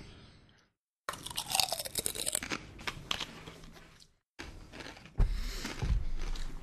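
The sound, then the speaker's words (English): Hard food is crunched and chewed in loud, crisp, grinding bursts that run densely on, broken by two brief silent gaps. “So I'm going to do some hard bite.”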